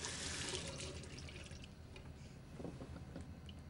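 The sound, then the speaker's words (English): Water runs steadily from a tap as someone washes their hands in a washroom, a soft, continuous splashing stream with faint irregular spatters over it, heard alone without talk. “washes his hands in the washroom”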